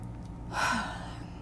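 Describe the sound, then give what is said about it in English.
A single deep breath: one rushing, breathy intake that swells and fades in under half a second, heard alone with no talk over it. “So I'm going to take a deep breath”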